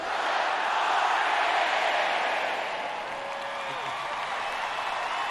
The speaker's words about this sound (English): Bill and Valeri, we have a greeting for you from all the audience here.